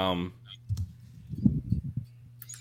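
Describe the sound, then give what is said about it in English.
Soft clicking on a computer keyboard comes as a quick, uneven flurry of faint taps just after a brief bit of voice. “Am I typing too hard for you”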